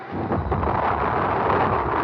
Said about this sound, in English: Lift off! It's going! It's good!